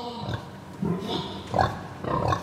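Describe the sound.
Farmed pigs kept as livestock give several low, throaty grunts. The grunts come in short, separate bursts spaced unevenly, with quiet gaps between them.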